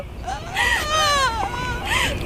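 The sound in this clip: An eight-year-old child cries and wails in long, wavering, high-pitched sobs that rise and fall, with a loud steady sound underneath.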